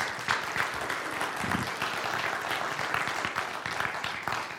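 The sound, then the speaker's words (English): A church audience applauding missionaries home from Tanzania, steady and even clapping from many hands that holds at a consistent level throughout. “Would you give them a round of warm welcome back home?”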